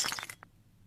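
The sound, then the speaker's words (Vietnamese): A tea cup is thrown and smashes in a sudden bright, shattering crash. One faint clink follows, then quiet. “Sẵn tiện lão cầm cái chén uống nước chè, ném đánh xoảng một cái thẳng về phía đầu của bà già.”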